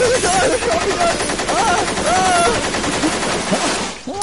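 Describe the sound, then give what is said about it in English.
Rapid, loud bursts of automatic submachine-gun fire rattle almost continuously in a jungle, with a voice crying out over the shots. “You nearly killed me with your automatic weapon.”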